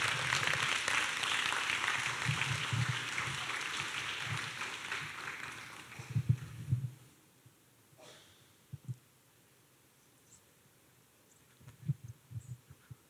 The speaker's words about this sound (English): And so let's give a hand to the Lord as we welcome Brother Kobe up to share his testimony.